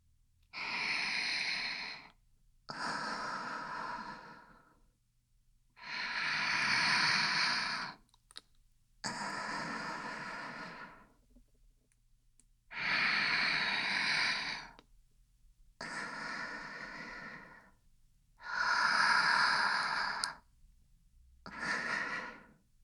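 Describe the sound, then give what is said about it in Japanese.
Slow, deep human breathing: eight long, airy breaths separated by short silent pauses, steady and unhurried, quiet and alone with no talk. “どうしても辛かったら、ゆっくり深呼吸して。”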